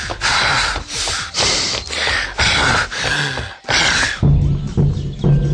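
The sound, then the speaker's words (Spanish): Heavy, loud panting from a person out of breath after walking about 900 metres from a bus stop, a rapid run of rhythmic gasping breaths heard alone. “me oiréis respirando fuerte, pero es que la última parada de autobús estaba a unos 900 metros.”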